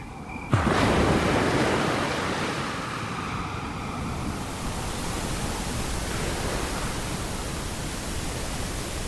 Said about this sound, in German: Ganz viele Leute hören sich ja Wellen oder weißes Rauschen an. Meereswellen.